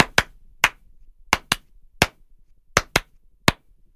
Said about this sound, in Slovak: No a tú druhú nápovedu sa pokúsim zatlieskať.